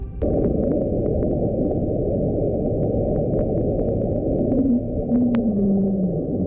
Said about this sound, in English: This one's called Julia. So they've slowed this one down a bit, but you might be able to hear the Julia sort of sound. Creepy. This was discovered in the oceans as well.